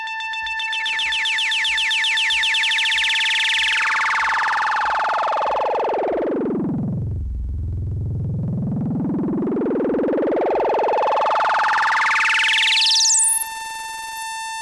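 Synthesizer notes shaped by an LFO and delay effects. Bright harmonic tones hold steady at first, then the sound sweeps smoothly down to a deep low pitch and climbs back up to a piercing high note before cutting off, over a constant steady tone.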